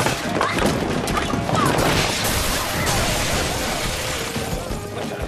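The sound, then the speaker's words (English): Bowling balls rolling off a broken shelf smash into a glass trophy case, a loud, dense crashing and shattering that holds steady through the whole stretch with no clear gaps. “The shelf breaks and all the balls roll off, smashing into a glass trophy case.”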